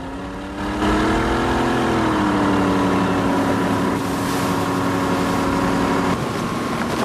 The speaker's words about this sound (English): pushes the throttle, making the boat surge forward.